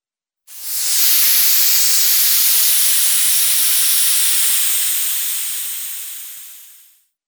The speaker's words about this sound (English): Hiss.